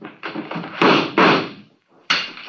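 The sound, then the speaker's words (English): Gunshots fired in the dark during a tense confrontation: a few sharp, loud cracks with abrupt onsets, surrounded by dense, noisy bursts of sound. “Keep shooting, Saxon, in the dark. You got 4 shots left.”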